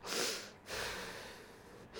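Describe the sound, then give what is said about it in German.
Heavy, labored breathing from a woman who struggles to breathe: two long, rough, noisy breaths, the second drawn out and slowly fading, with no talking. “Das Atmen fällt ihr schwer”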